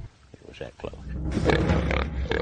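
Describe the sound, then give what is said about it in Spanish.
An angry, uninjured wild pig grunting: rough, irregular snorts that are faint at first, then swell into loud, sustained, harsh grunting. “A diferencia del animal que atacó a Smith, el cerdo que lleva a nuestra cámara no está herido, pero sí está furioso. Son animales salvajes, acostumbrados a vivir libremente.”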